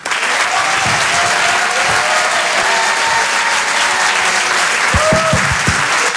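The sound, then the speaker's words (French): A comedy club audience applauds, dense steady clapping filling the whole stretch at an even loudness with no let-up. “Je vous demande de faire un maximum de bruit s'il vous plaît pour Arturo”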